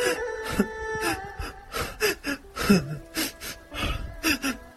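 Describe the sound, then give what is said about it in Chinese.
Loud sobbing from a person kneeling at a doctor's feet and clutching his trouser legs: many uneven bursts of wailing cries broken by sharp gasping breaths, with no words spoken. “抱住李大夫的裤脚，大声哭泣起来。”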